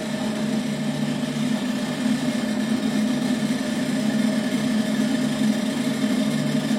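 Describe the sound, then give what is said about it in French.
A rope-making machine twists four strands into rope while an operator feeds a separator between the strands. It gives a steady, even mechanical drone with a constant tonal whine and no talk. “À l'autre extrémité de la machine, l'opérateur insère une olive entre les quatre torons, de manière à pouvoir avancer au fur et à mesure que la corde s'enroule.”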